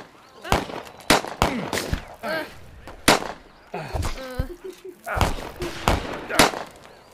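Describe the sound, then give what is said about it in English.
Gunshots during a shootout, several sharp cracks at irregular intervals, with a voice heard between them. “Well, he's shooting at Jesse now.”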